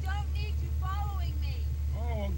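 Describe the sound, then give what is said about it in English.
A car engine runs with a steady low droning hum throughout, while voices talk over it. “I'm sorry, I can't hear you over the motor.”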